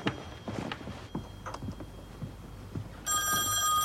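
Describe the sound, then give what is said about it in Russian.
Telephone bell in a film scene bursts into loud, continuous ringing near the end, after several soft taps like footsteps. “Звонок.”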